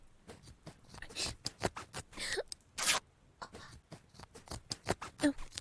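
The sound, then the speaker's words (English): Clothes are cut with a knife in many rasping, scraping strokes and sharp rips, irregularly spaced, with a few longer tearing swipes standing out among shorter cuts. “You can cut them off me, Daddy. Cut the clothes off me like you do your victims.”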